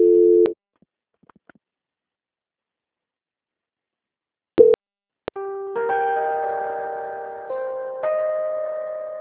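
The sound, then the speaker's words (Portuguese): Telephone line tones play while a call is transferred. A short beep is followed by near silence with faint clicks, then a sustained electronic multi-tone sequence that shifts pitch a few times. “só um minuto enquanto eu transfiro a ligação. Transferência.”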